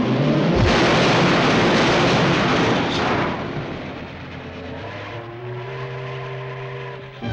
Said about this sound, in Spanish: Paso del tren, alto.